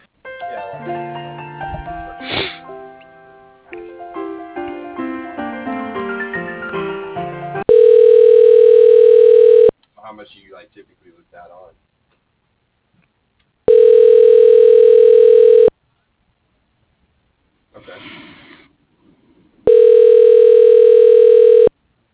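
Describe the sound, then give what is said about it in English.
An outgoing phone call rings through toward voicemail: a quick run of stepped dialing beeps, then three long, steady ringback tones of about two seconds each, separated by gaps with faint blips. “If you don't mind, I'll just take his voicemail, leave him a quick message.”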